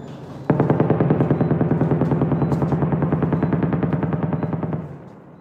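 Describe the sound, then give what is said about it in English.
Rapid automatic gunfire rings out during intensive shelling in southern Gaza. It starts suddenly and runs as loud, sustained bursts of closely spaced shots, then fades toward the end. “It's a very intensive shelling going around me.”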